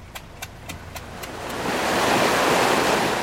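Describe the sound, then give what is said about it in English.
An irrigation pump draws water from the Nile in Sudan with a loud, broad rushing noise that swells and holds steady. Regular soft ticks pulse through the opening moments. “That noise you can hear is a pump taking the water up to irrigate the fields.”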